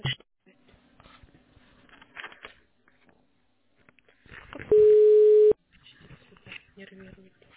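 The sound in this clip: Telephone line tone after a call cuts off: one steady, sustained beep of about a second, louder than the voices talking on the line before and after it.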